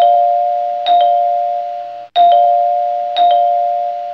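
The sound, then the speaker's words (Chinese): A doorbell rings insistently again and again: three loud electronic chimes in quick succession, each a sustained steady tone that carries on into the next. “紧接着门铃像催命一般，”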